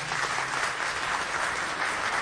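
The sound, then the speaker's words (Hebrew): Concert audience applause for the conductor at a cantorial music performance with the Ra'anana Symphony Orchestra: a thick, continuous wash of clapping at steady loudness from start to finish. “תנו לו מחיאות כפיים בבקשה.”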